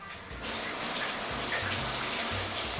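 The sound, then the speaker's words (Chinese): Water runs into a bath from a tap, starting abruptly after a brief quiet moment and then gushing steadily as a dense, even hiss over a low splashing rumble. “你洗澡还要洗多久？”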